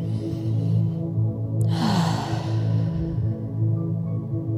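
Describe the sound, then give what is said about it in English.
A slow, deep breath taken during a guided relaxation exercise, heard as one long airy breath near the middle over soft, sustained background music tones. “Just taking a moment now to take a deep breath here.”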